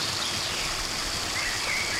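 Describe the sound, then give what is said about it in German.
Water gushing out strongly, a loud, dense rushing hiss that holds steady for the whole clip with no pauses and no talk. “Guck mal, wie das Wasser hier rauskommt, wisst ihr? Das ist nämlich so, das kommt nicht so lülülülülü raus, sondern das kommt richtig raus.”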